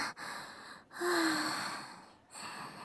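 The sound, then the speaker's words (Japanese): A nervous speaker's deep breath: soft breathy rushes, with one long breath of about a second between shorter ones, faint, with no talk. “深呼吸。”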